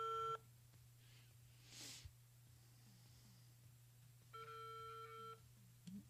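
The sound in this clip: Telephone ringback tone from an unanswered call: a harmonic ring tone cut off at the very start, then one full ring of about a second a few seconds later, over a steady low hum with no voices.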